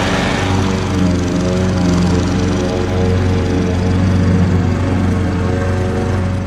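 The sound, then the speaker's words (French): A neighbour's lawn mower cuts the grass in the evening with a loud, continuous engine drone that stays steady and unbroken throughout, with no talk over it. “C'est votre voisin adoré qui a lui aussi eu une dure journée de travail et qui s'est dit qu'il allait attendre un peu de fraîcheur pour tondre son gazon ou faire des travaux bruyants.”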